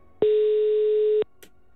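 A telephone ringback tone plays while a call is placed back: one steady, mid-pitched beep about a second long, then quiet with a brief faint tick.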